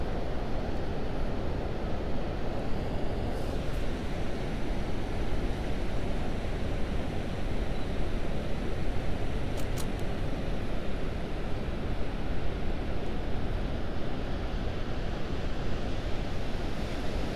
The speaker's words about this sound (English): I'm gonna walk down to the shore. Let's see if we can get some more sound of the waves here for you guys.